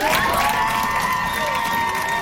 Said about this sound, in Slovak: Ja by som naozaj chcela veľký potlesk, pretože si sa podelila takto terapeuticky s nami.